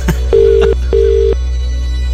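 Two evenly spaced bursts of a steady mid-pitched ringing tone sound as an outgoing call is placed, each about half a second long, over a low constant hum.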